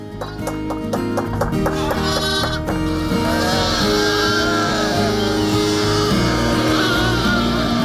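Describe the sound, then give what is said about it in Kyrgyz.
Lambs and sheep bleat on a farm where newborn lambs and twins are kept with the ewes. Many overlapping, wavering calls run loud and continuous throughout. “Баягы ачка козу мына көп койдун арасында таппай калат козулар энелеринчи.”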